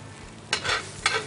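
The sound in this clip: An egg sizzles as it fries in a pan with rice: a steady hiss of frying, broken by two brief, louder bursts of sizzle and stirring.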